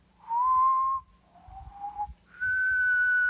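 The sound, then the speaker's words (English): Whistling in three long, steady notes: a clear mid-pitched tone, a slightly lower one, then a higher, brighter note. The notes are loud against a faint low rumble. “And then after the fairy dropped that, the unicorn started whistling again and said,”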